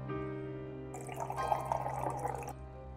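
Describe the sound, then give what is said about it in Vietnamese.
Red wine and soy sauce are poured into a dish while cooking, making a short splashy, trickling pour of about a second and a half over a steady low hum. “Rồi, rượu vang đỏ cho dậy mùi. Một ít xì dầu cho mặn mà.”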